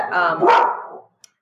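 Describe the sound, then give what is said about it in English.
A dog gives one loud, full bark lasting about a second, with a harsh, voiced tone that trails off. A tiny faint click follows after a short silence. “there's the dog”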